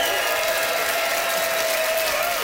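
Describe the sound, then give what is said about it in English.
An audience applauding to vote for a contestant at a live competition event, a steady, dense wash of clapping that holds at an even loudness through the whole clip. “It is up to the audience to vote. By applause, who enjoyed Dawn giving two hoots for night owls?”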